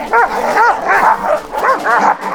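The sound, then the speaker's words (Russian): Dogs barking and yipping in many short, high-pitched bursts with a whining edge, loud and close together with brief gaps between them. “Возьмите другую собаку. Даже несколько. Я сегодня добрый. Смотрите, какие красавцы.”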